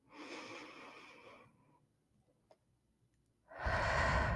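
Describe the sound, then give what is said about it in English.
Deep exhales from a guided diaphragm breathing exercise. A long, breathy rush of air fades out, followed by a near-silent pause, then another strong breath begins loudly. “Breathe in, expand your stomach, and then your diaphragm.”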